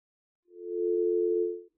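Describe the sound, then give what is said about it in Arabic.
Dial tone after a phone call disconnects: a single steady, mid-pitched tone holding unbroken for just over a second, heard alone against silence. “طيب انقطع اتصال أخينا”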